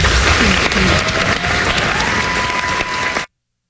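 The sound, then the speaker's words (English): Thunderous applause from an audience after a band's performance: dense, sustained clapping at a steady loud level that cuts off abruptly at the end. “Though the band didn't play the piece, they ended to thunderous applause nonetheless.”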